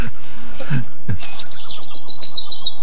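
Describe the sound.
Blue tit singing in a field, a rapid run of high, thin, repeated notes forming a bright, even trill in the second half.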